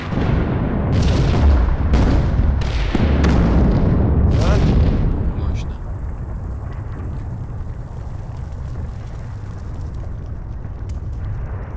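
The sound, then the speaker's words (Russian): Explosions in a film scene: several heavy booming blasts over a loud, roaring rumble for about five seconds, then a lower, steady rumbling aftermath that carries on to the end. “смотрят на взрыв. Смотри!”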